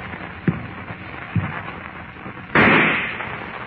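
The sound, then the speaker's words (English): A single loud rifle shot, a sharp booming blast that fades away over about a second. Two softer thuds come before it, and no one speaks. “Suddenly, the rifle in Harmon's hand thunders its message of death,”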